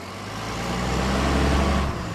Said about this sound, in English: Well, first, of course, it goes into the garbage truck.